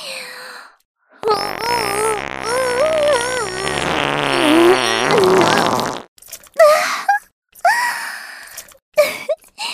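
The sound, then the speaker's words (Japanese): A long, wavering fart sound with a sputtering, tonal quality that lasts several seconds, followed by a few short breathy bursts. “出ちゃったわね。私のおならでピュッピュッピュー。すっごい量ね。”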